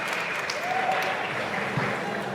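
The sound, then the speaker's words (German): Applause at a food tasting after the first dish is finished: a faint, steady patter of hand clapping that continues evenly without a clear start or stop. “Hat einen dort einen Applaus verdient.”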